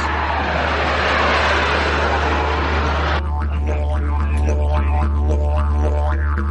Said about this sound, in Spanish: Abróchense los cinturones que despegamos.